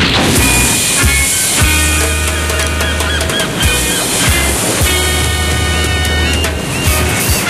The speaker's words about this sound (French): Allez-y, tout le monde à l'eau.